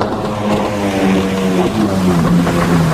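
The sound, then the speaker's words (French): A gas-powered lawn mower engine runs steadily, giving a continuous buzzing drone with a strong low hum and stacked harmonics, loud and even throughout with no voices. “Mais non, c'est une tondeuse.”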